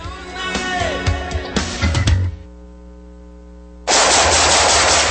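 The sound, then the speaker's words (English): Loud rapid bursts of automatic gunfire crackle for about two seconds. A quieter steady hum follows, then a sudden loud noisy hiss near the end. “Nice shooting.”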